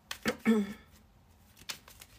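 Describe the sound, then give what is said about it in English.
A tarot card deck being shuffled in a few quiet, brief riffling bursts, with a short murmur of voice among them. “We'll pull you six cards as well from the African American tarot deck.”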